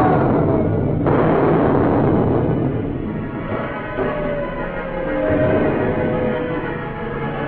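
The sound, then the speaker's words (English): Cannons firing a ship's broadside: dense, loud booming rumble that swells sharply about a second in, then rolls on as a heavy, continuous roar of overlapping blasts. “Prepare to fire from starboard. All the guns ready for action, Captain. Fire! Fire!”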